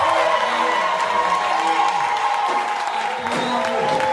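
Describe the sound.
A church audience at a Sunday service cheering and acclaiming Jesus: a steady, loud roar of many voices, with shouts rising out of the crowd noise throughout.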